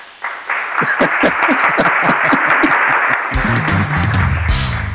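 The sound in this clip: Audience applause: dense, rapid clapping starts abruptly and runs for about three seconds, loud and steady, before other sound takes over.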